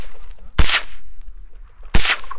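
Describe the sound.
Two sharp gunshots from a .22 firearm aimed at a box target 20 yards away, spaced more than a second apart. Each is a loud crack with a brief ringing tail, over a quiet background.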